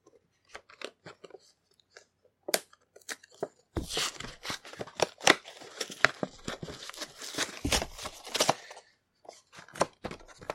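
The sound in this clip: Plastic packaging is torn off the back of a Pichu figure: scattered crackles lead into a dense stretch of ripping and crunching, which then thins to sparse crinkles.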